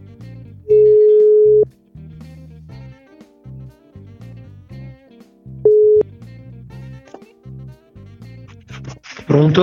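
Telephone ringing tone while placing a call: a steady, mid-pitched beep around a second long, then a second, shorter beep a few seconds later, over a low, rhythmic background.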